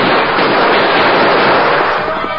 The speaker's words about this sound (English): He leaned low over the saddle, racing forward into the gunfire of the two outlaws. But their shots were hurried and careless